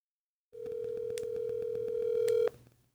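A telephone tone on a call: a steady, mid-pitched electronic tone holds for about two seconds over faint regular clicking, with a couple of brief bright blips, then cuts off abruptly.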